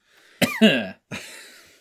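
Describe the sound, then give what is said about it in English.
Two harsh coughs, the first with a raspy voiced tail, the second shorter and breathier, with no talk around them. “You saved your cough for that, right? As I hit record?”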